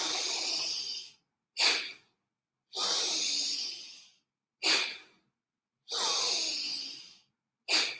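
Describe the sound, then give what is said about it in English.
Slow, deep breathing in a yoga pranayama exercise: three long, airy breaths, each followed by a shorter, sharper breath, clear and alone with no talk. “Couple of more times, breathe in, breathe out.”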